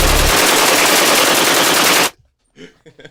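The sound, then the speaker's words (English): Machine-gun fire rattles in one loud, dense, continuous burst for about two seconds, then stops abruptly, and a brief voice follows in the quiet. “Sounds like machine guns.”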